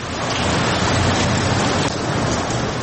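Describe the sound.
Heavy rain pours in a dense, unbroken hiss, loud and steady from start to finish with no voices.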